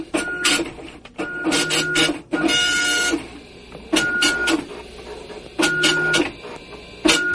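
A computer printer prints homework pages in several loud bursts of mechanical whirring and paper-feed motion, with short pauses between them and no talk.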